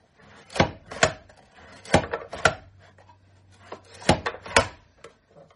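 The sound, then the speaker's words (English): Knife blade cutting through a carrot into oval rounds: sharp, crisp cuts that mostly fall in quick pairs, about six in all, with quiet gaps between, alone without talk. “let's slice the carrot and see what happens.”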